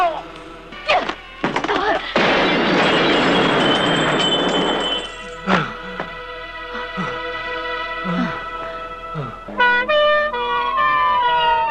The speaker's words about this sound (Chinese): 当任东压着珍妮和陈康就要上车时，狙击手击中了任东的耳边。